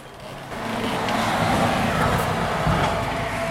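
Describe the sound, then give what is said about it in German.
Road traffic on a federal highway running through a village, a route trucks still take, heard through an opened office window: a steady, broad rumble and wash of passing vehicles that swells slightly after the start, with no talk. “Das steht direkt an der B3. Gibt es wenigstens hier in Jesberg eine Entlastung durch die neue Autobahn? Ja, wir können gerne mal das Fenster öffnen, dann hören wir, welche Lautstärke dann hier bei mir im Büro ankommt.”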